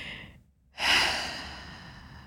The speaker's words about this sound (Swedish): stanna upp mitt i en stressig dag och bara ta ett djupt andetag, som sagt, och bara så här,